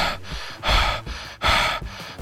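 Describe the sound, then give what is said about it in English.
A voice imitating the breathing of undead creatures in a tabletop role-playing game, with harsh, rasping inhales and exhales in an uneven rhythm. Two louder gasping breaths stand out among softer ones, and no words are spoken. “as they like run at you, they're not making any noise. All you can hear is like their breath.”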